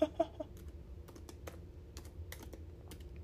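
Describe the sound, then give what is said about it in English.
A search query is typed on a computer keyboard: irregular, fairly faint key clicks tapping along at an uneven pace, with a couple of louder knocks at the start and sparse presses spread through the rest. “let's just try typing in like full moon and crazy people.”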